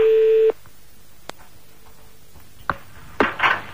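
A steady telephone line tone, heard while calling a number in Limoges, holds for about half a second, then cuts off. A few faint clicks and short line noises follow over a quiet line.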